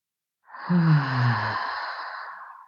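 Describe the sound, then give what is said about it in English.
A deep breath during a guided clearing, healing meditation: one long, soft exhale like a sigh, starting with a brief low voiced hum and then trailing off into airy breath. “And two more. Deep breath in.”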